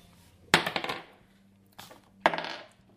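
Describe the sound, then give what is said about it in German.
Dice rolled during a tabletop role-playing game: two sharp clattering bursts, each followed by quick rattling bounces that die away. A fainter knock sits between them, over a low steady hum. “würfel bitte mal beide mit Weisheit.”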